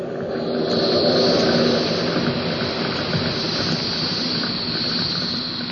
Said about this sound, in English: That's a carbon dioxide extinguisher. Pulls the temperature fast. Smothers the flame.